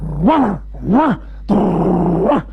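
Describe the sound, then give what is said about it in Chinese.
A man's voice imitates a dog growling during a solo comic storytelling performance: two short, loud growls rising and falling in pitch, then a longer, rougher snarl. “我说掌柜的，这谁家的狗？哎，是我们的狗。那怎么意思啊？我说吃，他咬我”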